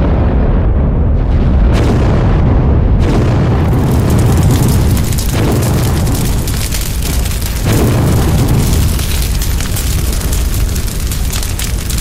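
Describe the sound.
Explosions rumble as a submarine deep underwater is hit by weapons. A continuous, loud, booming roar swells with a few heavier blasts and keeps rumbling throughout.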